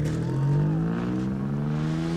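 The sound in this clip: A car driving away with its chauffeur, leaving the passengers behind: a loud, steady engine drone whose pitch rises slowly throughout.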